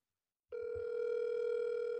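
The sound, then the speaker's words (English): An outgoing telephone call rings back: after about half a second of silence, a single steady, fairly faint tone starts and holds without a break to the end. “Ethan's getting rang on the line.”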